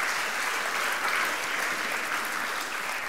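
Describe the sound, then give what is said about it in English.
An audience applauds a group of people on stage, the clapping dense and steady at an even loudness throughout. “And so this is less about like applauding. Well done for going to Berlin. It's just... Sometimes when you're fresh on a stage, it's just nice not to be silent, okay?”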